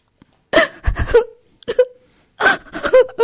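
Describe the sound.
A young woman sobs with her face resting on her knees, seated on the floor of a family home. Halting, wavering wails and moans come in a few bursts separated by brief silences.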